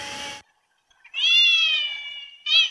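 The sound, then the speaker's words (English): A cat meows twice, heard through a headphones' cat mode that removes the sound of a vacuum cleaner. A long, clear, high-pitched meow comes first, then a short one, with a slightly hollow, processed tone. A brief noisy burst precedes them. “to me, it sounds like the cat is meowing in a submarine. But it's super clear, and the vacuum cleaner is totally gone.”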